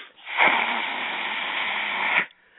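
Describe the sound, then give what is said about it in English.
A forceful breath is pushed out with the tongue drawn back to the rear of the throat as a ki energy exhale, making one sustained breathy hiss of about two seconds with an abrupt start and a clean cutoff. “I put the tongue back to the back of the throat and release the air, which it feels like a power exhaust.”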